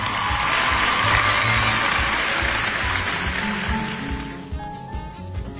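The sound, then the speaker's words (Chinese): Audience applause and cheering at a back-to-school First Lesson event. Loud, dense clapping and shouts hold for about four seconds, then fade away. “让我们为中华骄傲点赞喝彩。”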